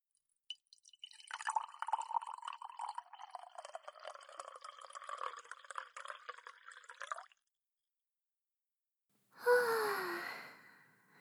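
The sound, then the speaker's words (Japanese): Darjeeling tea being poured into a cup, a steady trickling stream lasting several seconds, followed by a short silence and then a breathy human sigh. “なんてったって高級ブランドのダージリンだからね。私のカップにも注いでと。”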